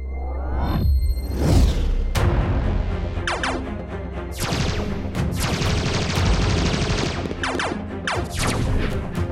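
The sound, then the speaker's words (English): Heavy gunfire from a warship in an audio drama: loud, crashing blasts and overlapping volleys, with swooping whooshes early on, build into a dense, sustained barrage. “Ockender warship, cease fire, cease fire. Stop shooting.”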